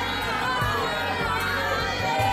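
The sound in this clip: A large crowd of pilgrims heading to Baba Dham fills the air with a dense, steady din of many voices, with scattered shouts and children's cries rising over a continuous low rumble.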